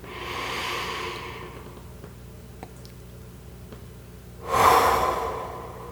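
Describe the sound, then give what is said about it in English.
Slow breathing in and out during a guided relaxation exercise: a long, soft breath fading out, a quiet pause, then a louder, fuller breath that swells and tapers away, with no voices. “notice your breath, following it in and out.”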